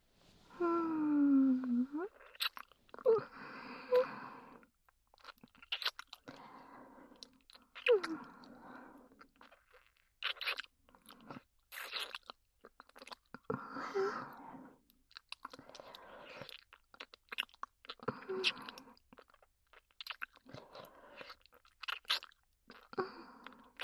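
Someone eats and chews food with many quiet, crunchy bites and wet chewing sounds spread irregularly across the span.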